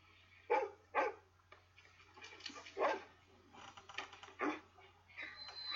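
A dog greeting someone arriving at a family home gives a few short, fairly faint barks, irregularly spaced, with quieter sounds between them.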